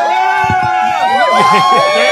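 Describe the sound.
Live audience cheering at the Rainbow: a loud, dense wash of many voices with shouted whoops and yells that holds steady for the whole stretch.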